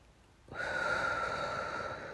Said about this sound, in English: Breathe in again.